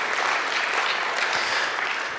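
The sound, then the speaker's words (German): Audience applause at a campaign event thanking its organizers: even, continuous clapping that lasts about two seconds at steady loudness, with no talk over it. “herzlichen Applaus.”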